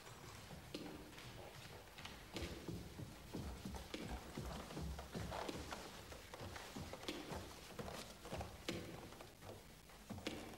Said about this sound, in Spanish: Lorenz monta un hermoso caballo negro por las praderas de Jutlandia.